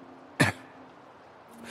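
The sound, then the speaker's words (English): A man clears his throat once in a short, fairly loud burst, followed by quiet with a faint, low steady hum. “I clear my throat”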